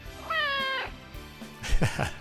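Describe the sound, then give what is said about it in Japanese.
A pet cat meows in a home recording, giving two distinct calls: a drawn-out, fairly steady meow, then after a short pause a louder, bending cry that falls away at the end. “これ千代ちゃんの家の猫ちゃんですね、アサリ。アサリの声を千代ちゃんに録音してもらって送ってもらったんですよ。”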